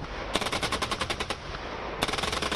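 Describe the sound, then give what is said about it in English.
Machine-gun fire from a massive joint South Korean and U.S. live-fire exercise near the border with North Korea. One long rapid burst of sharp cracks is followed, after a short gap, by a second, shorter burst. “The South Korean and U.S. militaries held on Thursday the first of the Allies' five rounds of firing exercises until mid-June. The massive joint live fire exercise played out near the border with North Korea,”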